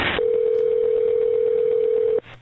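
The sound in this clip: A telephone tone at the start of a recorded 911 call, one loud continuous mid-pitched tone lasting about two seconds before stopping abruptly.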